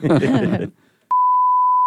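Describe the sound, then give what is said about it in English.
A beeper gives a steady, loud, mid-pitched beep to start a phone call. The tone holds unbroken after a brief stretch of talk and a short pause. “And we started the call with a beep.”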